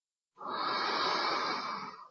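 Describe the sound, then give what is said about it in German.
One long, forceful breath during a guided breathing exercise: a steady, airy rush that starts abruptly, holds, then fades. “Regelmäßig ein- und ausatmen. Genauso lang wie ein, kraftvoll.”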